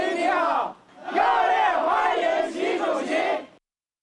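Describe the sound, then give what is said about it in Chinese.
Crowd of local overseas Chinese and Chinese company representatives shouting in unison to welcome Xi Jinping on his way from the airport in New Delhi: a short loud burst, a brief pause, then a longer chant that cuts off abruptly. “习近平乘车从机场赴下榻饭店途中，当地华侨华人同中资企业代表挥舞中印两国国旗，热烈欢迎习近平到访。”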